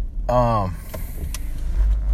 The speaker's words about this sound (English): the other thing is, I'm driving right now.